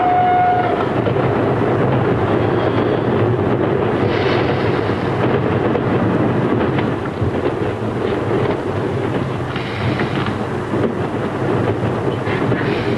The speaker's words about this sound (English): The train pulls to a stop.